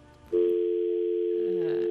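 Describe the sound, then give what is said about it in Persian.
A telephone dial tone on a faulty phone line, a single steady mid-pitched hum that cuts in abruptly after a brief low murmur and then holds unbroken to the end. “مثل که اشکال تلفنی موجود است”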